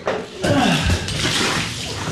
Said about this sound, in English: We were with him as he poured gallon after gallon of contaminated milk down the drain.